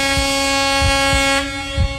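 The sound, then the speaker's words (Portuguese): A delivery driver's vehicle horn gives one long, sustained honk, holding a steady, rich harmonic tone for about two seconds, with a few low thumps pulsing beneath it. “Aí tá a buzina dele, né? Tá, dá aquela buzinada.”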